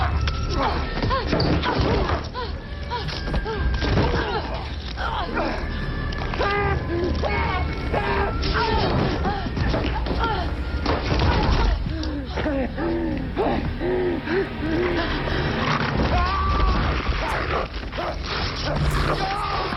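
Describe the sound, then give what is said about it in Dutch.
A violent fight scene from Game of Thrones plays as a dense, continuous, loud wash of crashes and impacts, with gasps and voices shouting through it. “Laten we heel even kijken naar, los van de kleding... ook het extreme geweld. Of luisteren eventjes. De ledematen die vlogen echt bij Game of Thrones door de lucht.”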